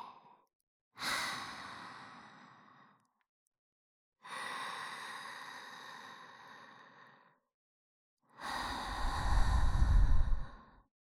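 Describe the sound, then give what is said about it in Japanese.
Slow, deep breathing: three long, airy breaths separated by silent pauses, each fading gradually. The last breath is louder, with a breathy low rumble. “それからゆっくり深呼吸して、そうそう、吸って、吐いて。”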